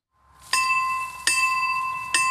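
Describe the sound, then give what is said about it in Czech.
An old village bell tower from 1968 strikes three times, each a bright metallic clang with long ringing overtones that sustain and overlap the next stroke, at an uneven, unhurried pace. “Tohle je vlastně stará zvonička, která tady je od roku 68”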